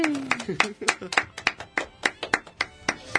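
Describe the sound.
A few people clap in a quick, even rhythm of sharp, distinct slaps at a live talk event, with a voice speaking briefly over the first moments.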